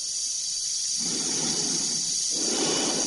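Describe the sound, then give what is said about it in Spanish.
An astronaut breathes inside a spacesuit helmet. Two slow, hollow, breathy swells rise and fade over a constant thin high hiss, with no voices. “Se escucha su respiración dentro de la escafandra.”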